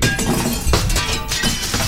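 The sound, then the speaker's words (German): Glass shatters as a kicked football smashes into a window behind a goal, giving a loud, dense crash with sharp breaking hits and a bright, sustained spray of tinkling fragments. “jetzt hat er voll ins Fenster getroffen.”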